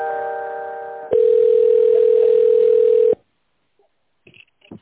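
Telephone line tones play while a business call is transferred: a steady multi-tone hum gives way to a loud, single sustained beep of about two seconds, then the line falls quiet apart from a few faint clicks.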